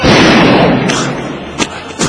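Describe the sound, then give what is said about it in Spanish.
A gunshot booms loudly and decays over about a second, followed by two shorter, sharp thumps. “Ahí vas a disparar. La cuenta de dos o tres, ¿eh? A la de tres, ¿eh? Una.”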